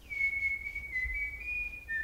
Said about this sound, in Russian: И не свисти. Ну не свисти, ну где ты воспитывался?